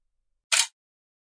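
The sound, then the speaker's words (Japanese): A single crisp camera shutter click sounds as a two-person selfie is snapped, brief and isolated against silence. “ねえ、久しぶりにツーショット撮ろうよ。記念にさ。ほら、こっち来て。”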